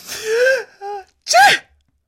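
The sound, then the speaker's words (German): A voice imitates a sneeze: a king sneezing from moon-cleaning spray, acted out as a drawn-out voiced intake, a short middle note, then a loud, sharp burst. There is no other talk. “musste von dem Mondputzmittel niesen.”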